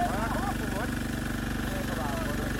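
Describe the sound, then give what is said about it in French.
A motor-driven pump pushes floodwater from a road back into a lake in Bujumbura, its engine chugging in a steady, low, rapid rhythm beneath a voice talking throughout. “Tout près, il y a une machine à moteur qui pompe de l'eau de la route vers le lac.”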